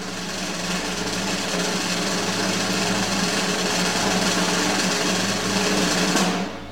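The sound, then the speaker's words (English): A sustained drum roll ahead of a prize draw, a rapid, buzzing, steady roll at even loudness for about six seconds before cutting off abruptly. “So, after the drum roll, a number between 1 and 6.”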